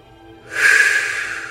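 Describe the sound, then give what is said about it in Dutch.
A single deep inhale through the nose, paced as a breathing exercise: after a quiet moment, an airy, steady rush of breath lasting about a second. “Haal diep samen met mij enkele keren adem. In door de neus en”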